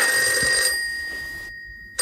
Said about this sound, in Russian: Телефон звонит. Ты собираешься ответить на звонок?